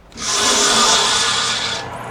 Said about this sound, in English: made this drill press in his garage out of a lawnmower transmission, a trailer jack, and part of a cotton planter.